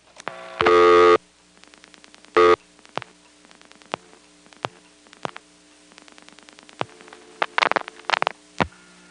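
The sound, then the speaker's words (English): Telephone dialing of 825-229 on a trunk line, with a hook flash, over a low steady hum. Two short loud tone bursts are followed by many sharp clicks at irregular intervals, with a cluster of louder clicks near the end. “Now I'm going to dial 825-229, but just before it starts to send, I'm going to flash my hook.”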